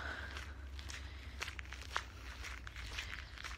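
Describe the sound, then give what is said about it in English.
Faint footsteps on a walk through a park at night crunch softly at an uneven pace over a low, steady background rumble. “I didn't really want to go home, so it's 8:45, but I'm walking through the park because it doesn't close until 10.”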